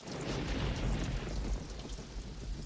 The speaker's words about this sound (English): Rain washes over the mud.